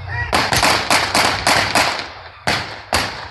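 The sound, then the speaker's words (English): Gunshots fired in rapid succession: many loud, sharp cracks in a quick, slightly uneven string, then a short pause before two final shots. “How many shots? 10? 10 shots.”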